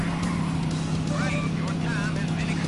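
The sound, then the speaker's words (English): Racing car engine sound from the Sega Saturn game Daytona USA, a steady, droning hum with wavering higher whines riding over it, continuous and fairly loud. “I really did enjoy that Daytona USA. You're burning up the tires.”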